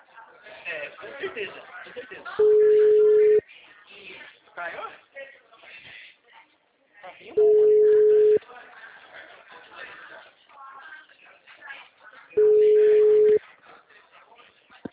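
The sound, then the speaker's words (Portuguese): A telephone busy signal sounds as three long, steady low beeps of about a second each, evenly spaced about five seconds apart, with people talking between and around them. “A mulher me liga agora que eu vou atender, tô vendo? Olá, o número está ocupado.”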